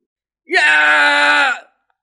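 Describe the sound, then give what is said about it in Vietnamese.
A loud, sustained cry of pain from a fantasy character whose arm has just been torn off in battle, lasting about a second with a quick upward swoop at the start, then holding steady before cutting off. “Âm tử kêu to.”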